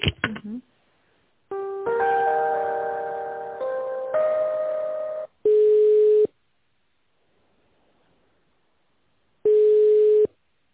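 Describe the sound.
Telephone ringback tone sounding while a call is being transferred: two long, steady, mid-pitched beeps separated by a few seconds of silence.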